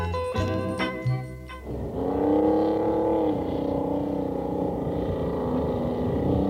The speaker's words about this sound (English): That's the sound of a Polaris truck, heard from coast to coast, down the winding Alaska Highway, through the mountains and valleys of British Columbia